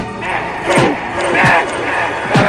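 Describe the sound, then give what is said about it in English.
A heel kicks at a wooden ship's mast, landing three dull, heavy thuds spaced roughly evenly beneath a narrating voice. “He starts to kick at the mast with a heel.”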